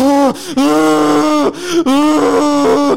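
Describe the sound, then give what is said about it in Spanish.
A voice imitates a crying child gasping and holding its breath: strained, moaning wails come in several bursts, broken by short silent catches and sharp gasps. “tú cuando llorabas de niño, eras de esos niños que se privaban así de que”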